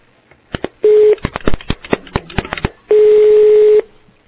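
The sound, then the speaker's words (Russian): Telephone keypad tones sound while a call is transferred to a sauna. A rapid run of short key beeps falls between two long, steady tones, with no talk. “А сейчас вот, подождите, дядю, сейчас переключу на вас.”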